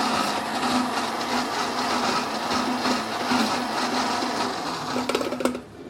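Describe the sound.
A blender whirs steadily on setting 2 while blending rocket pesto as olive oil is poured in gradually. The motor gives a continuous, fairly loud drone with a low hum, and a few short clatters come near the end.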